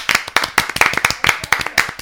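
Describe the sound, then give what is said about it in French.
A small group clapping for themselves, many sharp, distinct handclaps in a quick, loose rhythm, clear and fairly loud, with no steady crowd wash behind them. “On peut s'applaudir. Hein. Bravo.”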